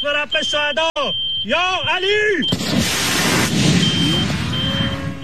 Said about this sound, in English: Iran's Fars News Agency published videos of Iran's missile attacks against U.S. forces. Have a listen.